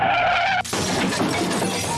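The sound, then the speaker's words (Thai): A car crash opens with a high, tonal squeal of skidding tires, then breaks abruptly into a loud, noisy smash of shattering glass that rattles on to the end. “โอ้โหก็รถชนเหมือนกัน”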